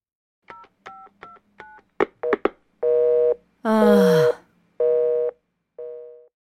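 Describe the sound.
Telephone dialing: four quick keypad tones and a few sharp clicks, followed by the repeated loud beeps of a busy line, with the final beep fading.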